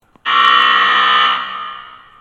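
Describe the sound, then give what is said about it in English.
A basketball halftime buzzer sounds once: a loud, harsh, steady electronic tone that cuts in abruptly, holds for about a second, then fades away. “That was the halftime buzzer.”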